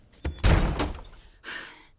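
A door with a hanging sign slams shut hard, giving a heavy thud that decays quickly. About a second later a second, softer bang follows.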